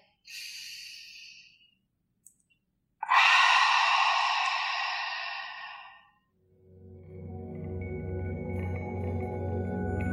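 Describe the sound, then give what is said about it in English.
A deep breath is taken and then exhaled fully through the mouth, a short airy breath followed by a long, loud, gradually fading exhale, then a low sustained tone rises afterward. “Breathe in through the nose and breathe out through the mouth. Exhale completely.”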